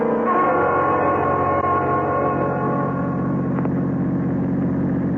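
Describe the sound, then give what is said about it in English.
A car engine drones steadily as the car drives along a road at night and pulls off onto the roadside, the low motor hum holding even throughout with no voices. “Well, Self, this is about as far as we should drive. We'll just pull off the road here.”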